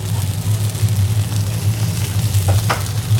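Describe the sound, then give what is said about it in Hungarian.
Food sizzles in butter on a griddle plate, a steady crackling, hissing fry that holds at an even level over a low continuous hum. “Majd amikor innen kivettük, akkor rátesszük ide a roslapra, itt még egy picit pirítjuk, és itt meglocsoljuk vajjal.”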